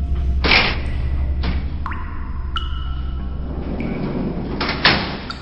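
A cell door in a psychiatric center opens as a doctor and nurse enter, with a few knocks and thuds and high squealing creaks over a constant low rumble.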